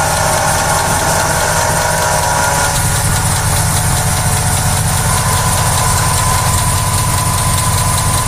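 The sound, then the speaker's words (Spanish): Car engine idling with worn water pump bearings, a steady loud mechanical drone with a rough, knocking rattle throughout, no voices. “Esto es debido al desgaste de uno o los dos baleros que tiene la bomba. Con el tiempo y con el uso se resecan y se vuelven rígidos y ruidosos.”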